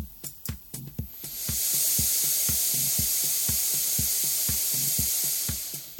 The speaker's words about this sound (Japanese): 僕の目の前に、そうですね、約50センチ、60センチぐらい向こうに Mac Mini があります。ここでファンがマックスに回るとこんな音します。